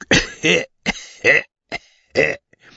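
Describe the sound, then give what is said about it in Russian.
A sergeant major gives a delicate, polite cough as several short, throaty bursts in a stop-start rhythm. “И старшина деликатненько закашлял.”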